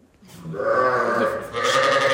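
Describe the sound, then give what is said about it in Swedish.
Sheep bleat on a farm in long, wavering, nasal cries that rise in quickly and hold loud and tonal, with a fresh bleat taking over near the end. “Ja, fåren bräker här på Strömmens gård”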